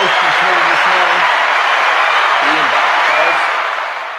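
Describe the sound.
Applause for the host of a sports talk show, a steady, dense wash of clapping with voices talking over it, tapering off at the end.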